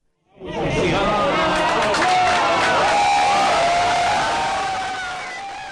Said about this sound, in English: Scientists cheered, as you could hear, and toasted with champagne after the Large Hadron Collider started making atomic particles collide head-on at record-breaking energies.